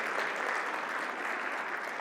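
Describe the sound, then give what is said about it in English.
Audience applause for volunteers: even, continuous clapping at moderate level, steady from start to finish with no talk over it. “Round of applause for these volunteers.”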